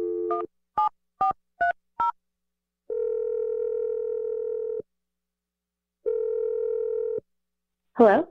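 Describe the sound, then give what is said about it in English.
Telephone keypad tones sound as a number is dialed: five short beeps of varying pitch. Two long, steady ringing tones follow, separated by silence, then a brief voice at the very end. “I'm going to dial the number right now.”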